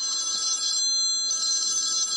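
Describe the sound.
A telephone rings with an incoming call to a radio quiz. Two bright, high-pitched electronic ringing bursts are separated by a short pause, heard alone at moderate volume.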